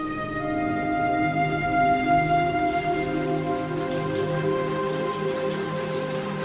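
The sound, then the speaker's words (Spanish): Rain falls steadily in an even, soft hiss that holds at a constant level throughout, with sustained tones running beneath it. It is an intermittent rain that has gone on for days, spoiling the city and threatening crops in the fields. “Desde hacía ya 15 días la lluvia caía intermitentemente”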